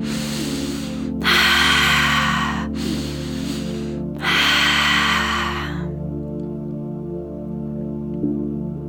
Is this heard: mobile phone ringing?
no